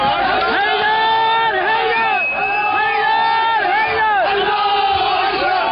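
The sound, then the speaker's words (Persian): A crowd of attackers shouts and chants in jubilation while storming the Saudi Arabian embassy in Tehran with stones, sticks and Molotov cocktails. Loud overlapping voices carry rising and falling cries throughout. “این صدای شادمانی مهاجمان است که در 12 دی ماه 1394 با سنگ و چوب و کوکتل مولوتوف به سفارت و کنسولگری عربستان سعودی در تهران و مشهد حمله کردند.”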